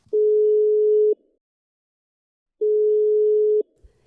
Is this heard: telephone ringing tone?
yes